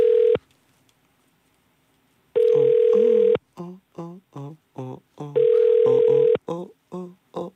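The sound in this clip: Ringback tone of an outgoing phone call that goes unanswered: a short cut-off tone burst, then two steady one-second tones, with people talking in the gaps between them.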